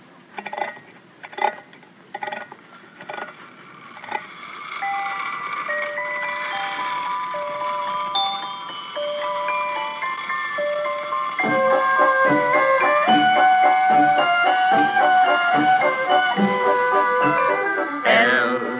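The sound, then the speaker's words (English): A wind-up toy merry-go-round gives a few sharp clicks, then spins and plays a bright, tinkling music-box melody that continues steadily and grows fuller. “Well, see, it's a little toy merry-go-round. Well, what do you want that for? Well, now, here, let me show you. First, you wind it up. And then you release the lever, and it spins around and plays music.”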